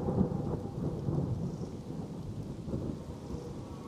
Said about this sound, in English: It has become somewhat stormy here. The water seems to drip through the trees' branches straight onto your heads.